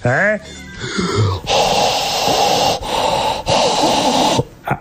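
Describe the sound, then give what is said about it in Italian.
Loud, heavy breathing from a person: raspy, hissing breaths drawn in long strokes, about four of them, after a brief vocal sound at the start. “sto facendo respiro.”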